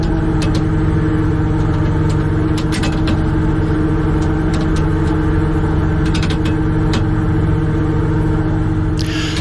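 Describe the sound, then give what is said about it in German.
Engine of a shrimp fishing cutter in the Wadden Sea off Hallig Langeness as the nets are put out: a constant loud, low rumbling hum with scattered faint clicks and clanks above it. No voices are heard. “Wir sind schon mitten im Wattenmeer auf dem Krabbenkutter vor der Hallig Langeness und jetzt werden die Netze ausgebracht.”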